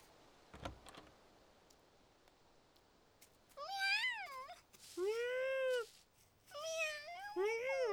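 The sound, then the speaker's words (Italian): Cats meow in a town inhabited by cats. After a quiet opening, several drawn-out calls bend up and down in pitch, fairly loud and alone. “Fantastico. È davvero abitato da gatti. Beh, ma vedi, d'altro canto è il paese dei gatti.”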